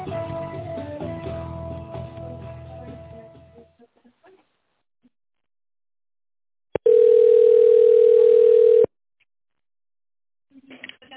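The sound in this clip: A single long, steady telephone ringing tone lasting about two seconds while waiting to be connected to a secretary. It follows a recorded voice prompt and a stretch of silence.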